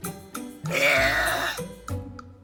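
A woman's world-record-breaking loud burp: one long, strained belch of about a second, framed by shorter throaty vocal sounds just before and after it.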